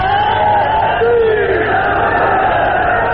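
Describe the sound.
Slogan chanting by a large crowd during a speech in Pakistan: loud, sustained massed voices roaring together without a break.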